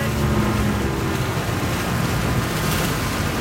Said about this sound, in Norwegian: Ved Turøy sakker brannbåten ned.